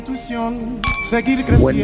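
Glasses clink together in a toast, with a few brief bright clinks standing out over a tonal background.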